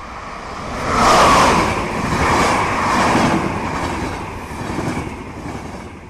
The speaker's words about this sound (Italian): Il rumore sordo di una locomotiva rimbomba sotto la volta vitrea della galleria della stazione